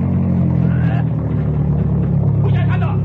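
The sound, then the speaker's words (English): A car engine drones loudly and steadily as the car drives toward a roadblock, a continuous low rumble with road noise throughout. “Slow down like you were going to stop at the roadblock, then when I give you the word, speed up again. We'll try to bust through.”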